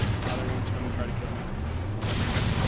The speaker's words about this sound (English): Causing that many explosions in just 60 seconds is...